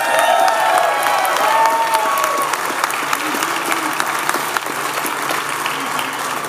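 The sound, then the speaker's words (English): Sustained applause from an audience at a University of Louisville football event: dense, steady clapping with crowd noise, holding at an even loud level throughout. “You guys give yourself a big old hand.”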